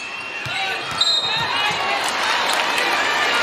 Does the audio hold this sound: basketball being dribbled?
yes

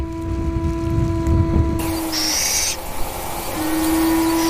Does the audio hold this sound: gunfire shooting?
no

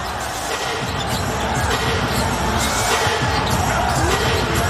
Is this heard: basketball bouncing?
yes

